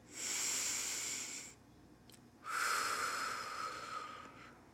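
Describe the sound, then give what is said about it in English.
A person taking a deep breath: a long, hissing inhale, a short pause, then a longer, breathy exhale, soft and alone. “Let's take a collective breath.”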